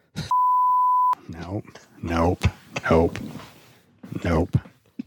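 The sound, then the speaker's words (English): A short censorship beep: one steady, pure high-pitched tone lasting under a second, cutting off abruptly before a person resumes talking. “That was such a short beep that I feel like it's going to misconstrue what was actually”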